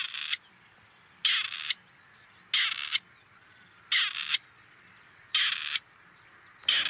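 A recorded bird call: six harsh, evenly spaced bursts, each lasting under half a second and separated by roughly a second of quiet, with no talk.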